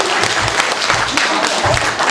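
Applause from the group at a Buddhist retreat: dense, steady clapping that stays loud and even throughout.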